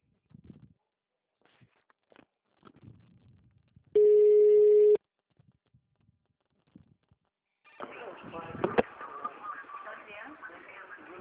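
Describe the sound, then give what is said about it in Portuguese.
A telephone signal tone follows the automated message of a phone extension system: a single steady electronic beep lasting about a second, between faint speech before it and louder rustling and voices after it. “Após o sinal, digite o ramal ou aguarde para ser atendido.”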